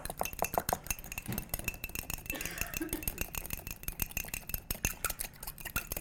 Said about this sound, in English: I'm just gonna take a fork and whisk it up.